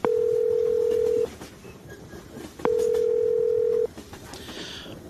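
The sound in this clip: Telephone ringing tone on a call to a mobile number: two long, steady, mid-pitched beeps, each over a second long, with a pause between them, over faint background noise.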